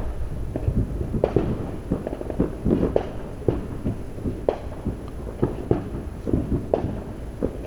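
A fireworks barrage: many irregular pops, cracks and thuds of varying loudness rise above a steady background of running fans.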